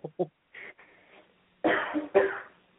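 Coughing and throat clearing: a few short, rough bursts, with two heavier coughs near the end and faint voicing between them.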